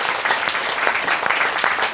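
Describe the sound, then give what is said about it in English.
Audience applause for a volunteer, dense and steady clapping that holds an even loudness throughout, with no voices over it. “Can we just clap?”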